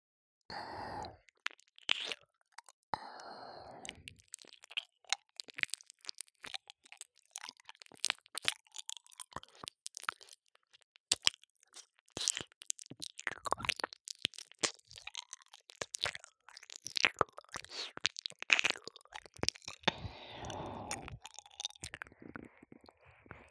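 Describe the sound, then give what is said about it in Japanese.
Ear cleaning in an ASMR ear-cleaning roleplay: many close, irregular scratchy crackles and soft crunching scrapes, some in dense bursts and others sparse, with no talking. “それでは、こちらのお耳の方からお掃除させていただきます。”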